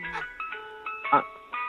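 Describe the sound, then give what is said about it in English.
An ice cream truck plays its jingle, a tinny electronic melody of clear sustained notes stepping up and down at moderate volume, with one brief louder burst partway through. “Are you outside by an ice cream truck?”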